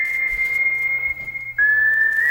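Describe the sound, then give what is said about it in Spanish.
A whistled melody opens a song: a clear high tone held on one note, a brief break, then a slightly lower sustained note, alone with no talk. “Sin duda, esta canción con este silbido inicial.”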